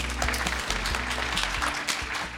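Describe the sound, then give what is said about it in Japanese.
Audience applause greets a presenter at a Japanese corporate investor briefing: a dense, steady patter of many hands clapping throughout, with no talk. “皆さん大きな拍手でお迎えください。”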